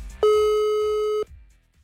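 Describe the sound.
A telephone call's ringing tone sounds while dialing: one steady, loud, mid-pitched tone lasting about a second, then it cuts off into near silence.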